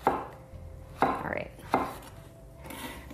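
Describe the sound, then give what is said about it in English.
A knife chops ripe peaches into quarter slices for a baked dessert recipe, with a few crisp, sharp knocks against a cutting board spaced unevenly apart and a softer cutting sound between them. “mine are, are pretty nice size, so I'm gonna cut them into four.”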